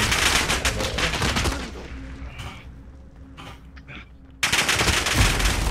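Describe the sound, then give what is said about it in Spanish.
Rapid gunfire in a video game match where players drop in by parachute. Dense, crackling bursts of shots come at the start, fade to a quieter stretch, then return loudly at the end. “Había uno con el paracaídas delante mío y he dicho voy a dispararle. Y me he quitado el paracaídas, he disparado.”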